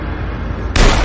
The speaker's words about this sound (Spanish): Dispara al suelo.